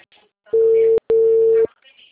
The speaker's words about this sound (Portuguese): A ligação caiu. Ah, aqui caiu.